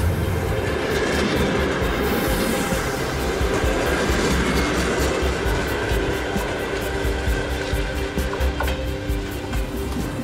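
A train runs along the Arctic railway line near Nadym in Russia, a loud, steady rumble and rattle of wheels and carriages that fills the whole clip with no letup and no voices.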